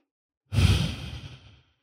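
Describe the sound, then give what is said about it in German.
A person takes a single long, soft breath out like a sigh. It starts suddenly and fades gradually, with silence before and after. “Und dann atme nochmal ein und aus.”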